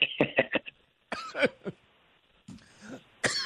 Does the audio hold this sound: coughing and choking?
yes

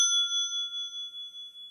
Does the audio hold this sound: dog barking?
no

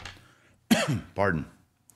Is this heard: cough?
yes

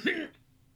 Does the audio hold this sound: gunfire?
no

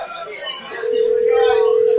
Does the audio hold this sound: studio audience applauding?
no

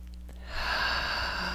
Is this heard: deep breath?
yes

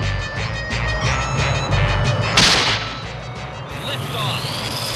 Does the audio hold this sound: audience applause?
no

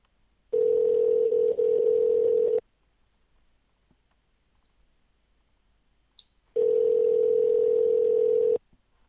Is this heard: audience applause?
no

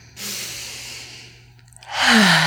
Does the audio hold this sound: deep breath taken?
yes

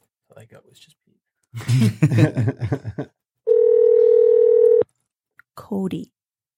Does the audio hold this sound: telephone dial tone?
yes

